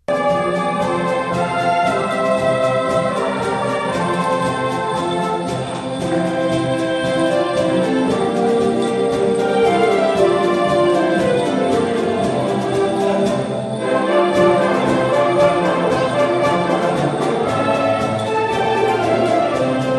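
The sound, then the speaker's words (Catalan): A new gitanes dance tune composed for the Esbart Sabadell Dansaire folk dance group plays as loud, continuous instrumental music with sustained harmonic tones and a steady pulse, broken once by a brief drop partway through. “diumenge estrenen el nou ball de gitanes de l'entitat, un tema que s'ha creat expressament per l'ocasió i que sona així.”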